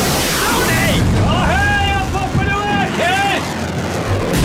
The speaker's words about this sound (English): we're going to launch a load of missiles at and blow up Tipperary. 3-1, fire!